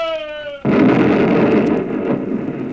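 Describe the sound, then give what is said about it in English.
An explosive blast sets a big warehouse roof aflame: a steady harmonic tone suddenly gives way to a loud boom, then a sustained, heavy rumbling roar that stays loud to the end. “With the blast, a sheet of flame rose from the roof, and all at once the big warehouse caved into an inferno.”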